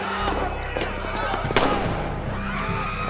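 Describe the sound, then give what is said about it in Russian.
Gunfire from sniper shooting during a street clash with police and soldiers: a few sharp cracks, one louder than the rest, over a dense, continuous noisy background with voices. “Снайпер! Вики. Стреляют. Полицейские и солдаты.”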